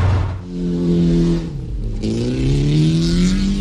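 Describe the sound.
Engines rev on cheap cars in a wreck race: a loud, rough, harmonic drone that dips briefly, then climbs steadily in pitch.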